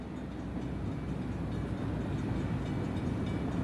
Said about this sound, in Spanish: Pues lo cierto es que ir en tren todo el rato por un túnel no tiene demasiada